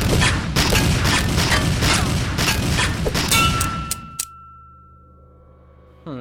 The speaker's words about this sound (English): Is that a gun? Kid, look out!